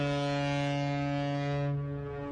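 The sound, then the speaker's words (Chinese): Horn of a Yangtze River cargo ship loaded with new wheat, sounding as the ship departs: one continuous, deep, steady blast rich in harmonics, loud throughout and easing slightly at the end. “一艘艘满载新麦的货轮鸣笛起航”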